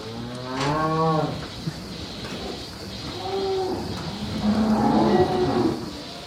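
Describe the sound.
A dairy cow moos in a free-stall dairy barn near Soest, with a few loud, drawn-out, resonant lows. Quieter barn noise fills the gaps between them.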